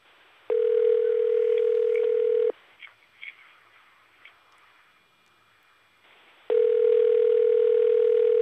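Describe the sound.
Telephone ringing tone on a call to a house in Santo Domingo, made of two long, steady, pure tones of about two seconds each. A quiet gap with a few faint clicks separates the two tones.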